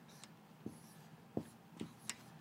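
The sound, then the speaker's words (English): Writing on a board comes through as a few short, faint strokes with soft scratchy attacks, spaced irregularly over a low background hiss. “I'm going to write it on the board as it appears in Scripture.”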